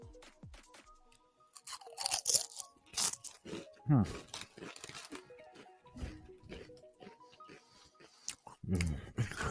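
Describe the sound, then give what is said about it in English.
Crunching of Lay's yogurt and herb potato chips being bitten and chewed: many loud, crisp, irregular crackling bursts with softer chewing between them, heard up close. “Okay, so this is the Lay's yogurt and herb. I'm trying to figure out what it tastes like.”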